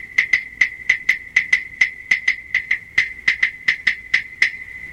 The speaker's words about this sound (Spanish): Así suenan las claves.